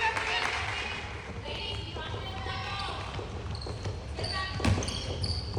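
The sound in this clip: A basketball is dribbled on the court during a women's game, giving a steady run of low, thudding bounces with faint squeaks and voices beneath.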